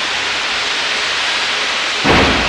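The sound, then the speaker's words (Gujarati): Heavy thunderstorm rain pours down as a steady dense hiss, then a sudden loud thunder crack bursts in near the end. “વીજળીના ચમકારા થઈ રહ્યા છે, વરસાદ સુપડાની ધારે વરસી રહ્યો છે.”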